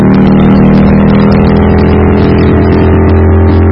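A motorbike engine roars while being ridden with three people aboard, a loud, steady, unbroken drone with a deep rumbling low end and rough mechanical noise throughout.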